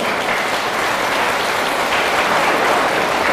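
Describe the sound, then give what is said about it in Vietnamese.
Children give a big round of applause, a loud, dense and sustained burst of clapping that fills the whole moment without a break. “Nếu muốn thì hãy dành một tràng vỗ tay thật lớn”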